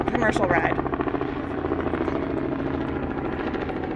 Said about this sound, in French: Celui-là, à mon avis, c'est un hélico loué par des touristes.